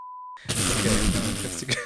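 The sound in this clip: A short, steady censor beep, a single high pure tone lasting about a third of a second, cuts off abruptly and is followed by a voice talking.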